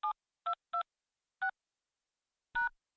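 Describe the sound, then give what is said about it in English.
Phone keypad tones punch in a password on a Rogers Wireless voicemail system: five short electronic beeps at uneven intervals, the last one slightly longer and louder, each alone against silence. “Welcome to Rogers Wireless Voicemail. Please enter your password.”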